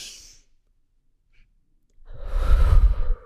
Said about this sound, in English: Everyone take a deep breath in.